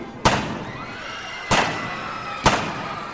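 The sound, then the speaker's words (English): Three gunshots are fired point blank at a party, each a sharp, loud bang. The shots are irregularly spaced over a continuous background noise. “Chalino shoots Chapo Perez 3 times point blank.”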